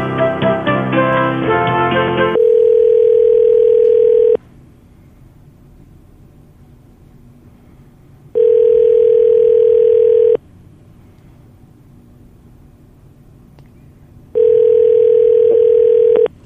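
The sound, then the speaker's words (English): Call-transfer telephone tones, with a brief stretch of music at the start followed by three steady ringing tones. Each tone lasts about two seconds and they are separated by long, quiet gaps. “hold on just a moment. I'm going to transfer you to Teresa Davis.”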